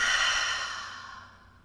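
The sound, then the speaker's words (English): A big exhale pushed out through the mouth during a guided breathing exercise: one long, airy whoosh of breath that starts strong and slowly fades over almost two seconds, heard alone. “Let's take a big breath in through the nose. Big exhale out through the mouth.”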